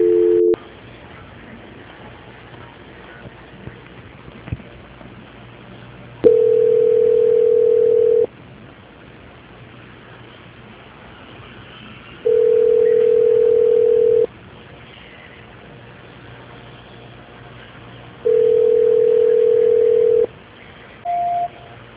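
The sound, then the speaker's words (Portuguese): Telephone call-transfer tones play a steady single-pitch hum that switches on and off. Three long tones of about two seconds each are separated by longer gaps, with shorter bursts at the start and end, all over a faint background hiss. “Alô? Alô? Oi, Wagner, peraí que voltou de novo, só um minuto. Transferência.”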